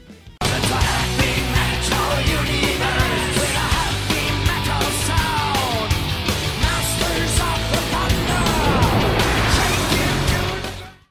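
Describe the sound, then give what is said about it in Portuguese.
An intro jingle for an album review: a loud, dense burst of roaring engine-like noise and yelling that holds steady for about ten seconds, then cuts off sharply. “Roda a vinheta aí, ó, técnico do TI.”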